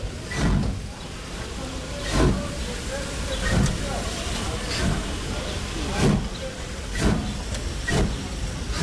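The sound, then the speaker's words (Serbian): A local passenger train on the Lapovo–Stalać line running on rails: a steady low rumble with regular, fairly loud wheel clacks, one about every second or so. “Događa se u lokalnom vozu Lapovo-Stalać, a ponešto i u kućama sagovornika ili železničkim stanicama.”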